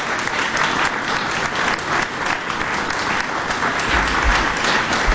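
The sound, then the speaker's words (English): An audience at Genesee Country Village and Museum applauds to thank the Antiques Roadshow team, a steady, dense roar of clapping lasting about five seconds. “And the audience wants to thank you now as well.”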